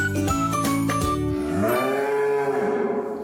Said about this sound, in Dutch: Ja, dit is een koe die zegt, ik roep de anderen.